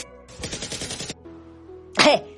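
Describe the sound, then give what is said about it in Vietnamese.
Automatic gunfire from an M4A1 rifle rattles out in a rapid burst of shots, followed by a quiet pause and then a second short, sharp burst. “Còn nốt mấy viên, không bắn nó kẹt đạn mệt lắm. Cây M4A1 này riêng vụ tháo ra rất là phiền.”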